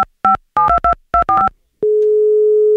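Telephone keypad dialing beeps in quick short bursts while placing a call, followed by a steady, loud single-pitched line tone held unbroken to the end.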